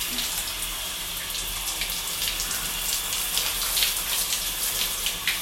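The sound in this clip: A shower runs steadily while a person washes, a soft continuous hiss and patter of falling water that stays fairly faint and even throughout, with no voices.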